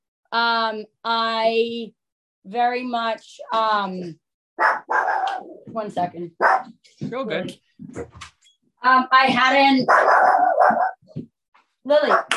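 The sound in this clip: A dog barks and whimpers in a few short bursts of high, tonal yips, followed by people talking over further faint yips.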